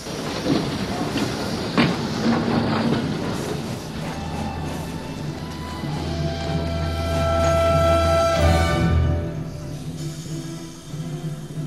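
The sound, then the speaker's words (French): A train departs Paris Gare de l'Est in 1943 carrying workers, with rumbling wagons, clattering wheels and hissing steam. A low sustained drone and a tonal whistle-like line swell in the middle, then the noise eases off. “Paris, Gare de l'Est, 17 avril 1943. Quelques dizaines d'ouvriers français partent travailler en Allemagne.”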